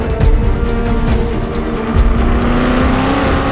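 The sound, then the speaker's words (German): Engine of a KTM X-Bow RR race car, 370 hp and 800 kg, driving on a track at Mendig: a loud, steady, high-revving drone that holds throughout without a break. “In den Asphalt gebrannt von einer puristischen Rennmaschine. 370 PS und ein Leergewicht von 800 Kilogramm. Der KTM Crossbow RR, der Tabellenführer.”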